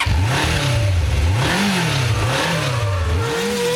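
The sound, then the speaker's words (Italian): A short jingle for a radio sports and motoring show, built on a loud revving car engine whose droning pitch swells and drops several times, with no voices. “Siamo in leggero ritardo, sentiamo la sigletta.”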